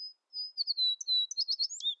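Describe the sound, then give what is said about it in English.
An American sparrow chirping, a quick series of many thin, high-pitched chirps and short trilled notes that grow busier toward the end, heard alone with no voices. “Though American sparrows are common in North America, the populations have steeply declined since the 1970s.”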